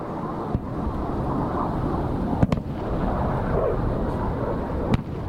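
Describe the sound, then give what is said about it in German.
An interceptor missile destroys an incoming rocket in mid-air, heard as a continuous loud, rumbling roar broken by a few sharp, cracking bangs. “Dann wird die Flugbahn der Raketen berechnet und anschließend eine eigene Rakete gestartet, die die gegnerische Rakete in der Luft zerstört. Das hört sich dann so an.”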